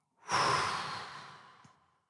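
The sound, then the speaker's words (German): One loud exhale follows a deep, held breath. A breathy rush of air starts strong and fades gradually over under two seconds, alone, with no voices. “Atme jetzt so tief ein, bis deine Lungen voll sind. Halte die Luft an. Zähle bis 5. Und atme laut aus.”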